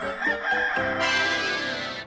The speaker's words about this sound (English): Chicken. Chicken.